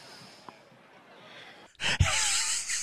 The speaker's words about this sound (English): It's a big breath. I love the big breath.